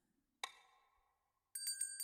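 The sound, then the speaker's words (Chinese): A small bell rings faintly: one clear chime with a long fading tail, then a pause, then a quick run of several lighter rings jingling together. “如果听到这个铃铛声的话，一定会变得很放松，很想要在我的声音里睡去吧。”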